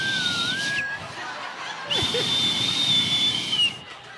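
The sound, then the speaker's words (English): A voice imitates a nose whistling from allergies during sleep: thin, high whistling tones, a short one that wavers slightly, then a longer steady one, with faint breathy hiss. “Her allergies had kicked into the point where she was repeatedly waking herself up with her own nose whistling and then gave me a heart attack. She is in my car with a jacket over her going,”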